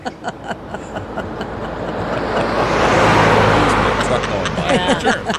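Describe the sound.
A car carrying Ringo Starr to a rehearsal for his all-star band tour, driving with the window down. Broad road noise swells to a peak midway and eases slightly, with faint voice-like chatter mixed in.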